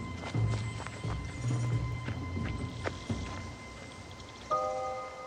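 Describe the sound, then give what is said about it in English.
Footsteps run through woods, a quick, irregular series of soft thuds and crunches, with a steady high hiss beneath and no talk. “Mo runs through the woods, catching up with the pair.”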